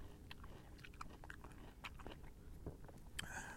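Biting into and chewing a peach, with many soft, wet, squishy bites and chews in a quiet, irregular rhythm.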